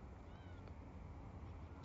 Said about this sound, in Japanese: ミャーミャー言うて、なんか弱々しい。猫ってそんな泣きますの？